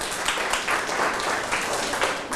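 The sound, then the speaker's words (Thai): Children in a classroom clapping for a classmate during a maths lesson, a steady, dense patter of applause that continues evenly without pause. “เก่งมากครับปรบมือเพื่อนหน่อยครับ”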